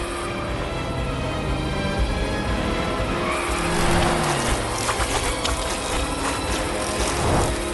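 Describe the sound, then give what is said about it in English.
A car speeds off in reverse while fleeing a locust swarm. Its engine roars in a dense, continuous rush with tire squeal, swelling slightly louder partway through and staying loud to the end. “He speeds off in reverse as locusts splat into the car.”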